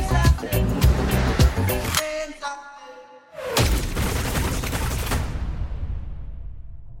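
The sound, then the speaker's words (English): Machine gun fire sound effect in a reggae song bursts in after a short lull in the music, a loud, dense rattling barrage that gradually tails off over several seconds. “Is that like a machine gun scene?”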